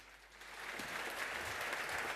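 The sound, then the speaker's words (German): Audience applause greets performers introduced on stage: a dense patter of many hands clapping that swells slightly and holds, fairly faint overall. “Einen herzlichen Applaus.”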